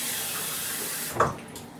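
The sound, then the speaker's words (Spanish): Water is poured from a glass into a pressure cooker to cook lentils, a steady rushing pour that ends in a brief splash and then fades to a quieter trickle. “vamos a empezar por poner 3 vasos de agua y uno de lentejas en una olla express”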